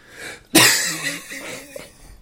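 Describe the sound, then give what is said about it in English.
A single loud, harsh cough from a person who keeps coughing bursts out suddenly, then trails off into a fainter, breathy tail. “sorry I'm coughing so much”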